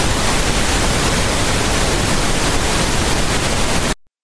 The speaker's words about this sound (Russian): Розовый шум минус 3 децибела.